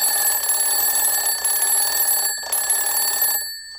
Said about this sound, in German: Wir nehmen auch schnell mit in die Zeit heute Morgen, nachdem der Wecker geläutet hat.